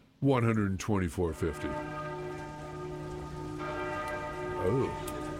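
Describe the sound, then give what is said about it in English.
Bells ringing: a few struck tones near the start blend into a long, sustained metallic hum with layered overtones. A soft, steady hiss resembling rain runs underneath throughout. “The bells.”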